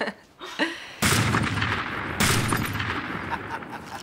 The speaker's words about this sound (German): Es geht doch nichts über eine gepflegte Schießerei unter Männern, nicht wahr?